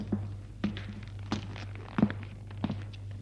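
Footsteps walk down an empty hospital corridor: five slow, evenly spaced, soft thuds over a steady low hum.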